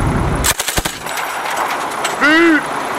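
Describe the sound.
A short rapid burst of C9 gunfire in a video game: several sharp, loud shots close together near the start, followed by quieter game ambience, with a voice present.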